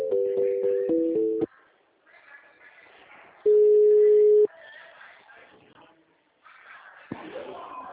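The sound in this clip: Telephone line tones sound while a call is transferred to a personnel department. A pitched, stepping electronic beep pattern lasts about a second and a half. Quiet, muffled line sound follows, then a single steady tone of about one second and more faint murmuring.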